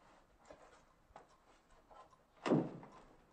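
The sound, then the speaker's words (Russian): A door opens: a few faint clicks and rattles, then one louder, fuller thud near the end, all quiet overall. “Дверь вновь открывается. Комендант возвращается с подушкой в руках.”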